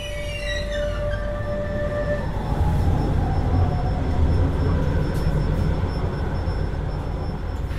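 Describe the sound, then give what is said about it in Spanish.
A train's doors close and the train starts to move off. Bright tones fade early on, then a steady low rumble builds and carries on under faint high squealing, with no voices. “Se cierran las puertas. Arranca el tren.”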